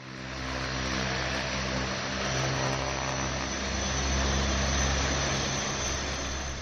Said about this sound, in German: So klingt die Begleitmusik von fast 5 Jahrzehnten Luftwaffengeschichte. Eine Transall startet. Das Transportflugzeug, der fliegende Lastesel der Bundeswehr seit knapp einem halben Jahrhundert.